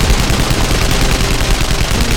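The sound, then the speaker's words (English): Heavy gunfire from a deck gun worked by hand on a boat, a loud, dense, unbroken roar of rapid shots that fills the whole stretch without a pause. “He started pumping the deck gun, the pounding of it something he could feel.”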